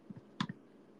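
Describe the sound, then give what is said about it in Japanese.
Computer mouse clicks on an exe file: a few faint, soft clicks, including a quick double click, against a quiet background. “エグゼファイルをダブルクリック。”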